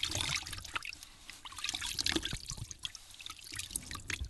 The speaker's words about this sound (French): Il prend de l'eau dans ses mains et se lave le visage pour enlever la boue.